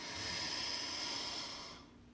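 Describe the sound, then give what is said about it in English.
Slow inhale through the nose during a guided breathing exercise: a soft, steady, airy hiss that lasts under two seconds before fading away. “take our tongue off the roof of our mouth, and breathe in through our nose.”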